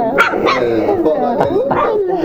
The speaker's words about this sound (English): I honestly didn't think they had the bark.